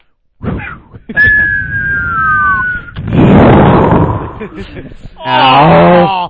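Falling-bomb whistle and explosion sound effect used as a comic gag: a thin whistle glides steadily downward for about two seconds, then a loud, broad burst of explosion noise swells and fades, followed by a short vocal sound.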